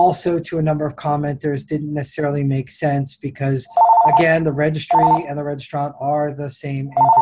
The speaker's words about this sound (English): So I apologize for the phone ringing in the background. That should go away in about 30 seconds.